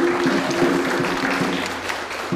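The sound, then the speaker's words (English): Light applause from an audience seated in a circle, following a birthday announcement at a community gathering; a soft, even patter of clapping continues steadily for a couple of seconds. “in between each announcement, the audience offers a light applause, and a man sitting in the circle uses a drum.”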